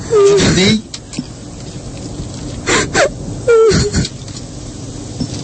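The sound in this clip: A person crying in a few wailing, moaning bursts, with whimpering breaths and gasps between the louder sobs.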